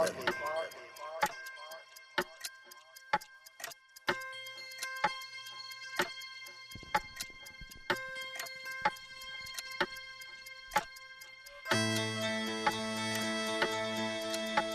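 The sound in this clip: Ticking clock, many steady, evenly spaced sharp ticks over a sustained tonal drone that grows fuller and denser near the end.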